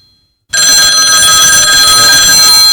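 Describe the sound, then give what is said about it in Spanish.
Telephone bell ringing, loud and bright: after a half-second of near silence, a steady, continuous metallic ring with piercing high tones starts abruptly and carries on unbroken to the end. “Ya verás, a ver si cojo el teléfono.”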